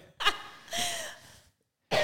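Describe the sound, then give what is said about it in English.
Stifled coughing from a woman with a cold: a few muffled bursts, the middle one longer and strained, the last cut off at the end, separated by short silences. “She's trying to keep in her cough because she has a cold and it's making her cough a bunch.”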